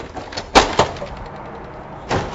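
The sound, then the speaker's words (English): Doors being opened make three thudding, rattling knocks, two close together and a third after a pause, over a low steady background hum. “I'm thinking of opening these doors. Do you think it might help?”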